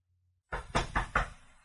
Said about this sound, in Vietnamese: Có tiếng gõ cốc cốc, Nhã Tịnh